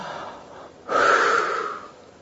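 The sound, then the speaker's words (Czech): Deep breathing done as a calming exercise: one soft, airy breath, then a louder, longer rushing breath that slowly fades. “Zhluboka dýchat.”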